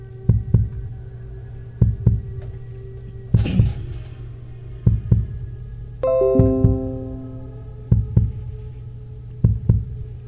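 Heartbeat, steady paired lub-dub thumps at a slow, even pace over a constant low hum, with a short run of falling tones sounding midway.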